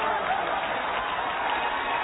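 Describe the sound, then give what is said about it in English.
A baseball stadium crowd in Baltimore roars and applauds in a standing ovation after a home run, a dense, steady wash of cheering and clapping that holds at an even level throughout. “With a standing ovation from the Orioles crowd, too.”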